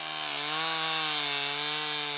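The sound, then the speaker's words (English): Chainsaws cut firewood logs from forest-thinning projects in a snowy village: a steady, buzzing engine whine holds a single pitch throughout, dipping slightly near the start. “volunteers with chainsaws cut and stack logs that will be sold at a steep discount or given away”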